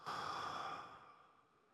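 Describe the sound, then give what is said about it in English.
A group taking a deep breath together and exhaling: a single soft, airy rush of breath that starts strong and gradually fades away in under two seconds. “now we're going to take a deep breath all together. Take a deep breath. Exhale.”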